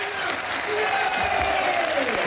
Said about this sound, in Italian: è uscito Diao, giustamente molto applaudito